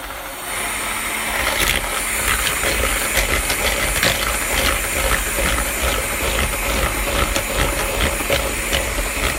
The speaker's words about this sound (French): on va commencer par bien mélanger tout cela au batteur électrique, c'est quand même un peu plus simple. On va battre les jaunes d'œufs et le sucre jusqu'à ce que le mélange blanchisse.